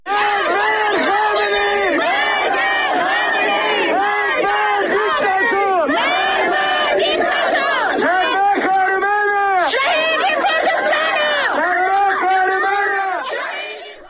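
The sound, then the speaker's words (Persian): Protesters and mourners chant slogans together at a graveside, a loud mass of voices repeating rhythmic phrases in unison, sustained throughout and tapering off at the end. “صدای شعار معترضان و عزاداران رو بر سر خاک شادمان احمدی هم میتونیم با هم”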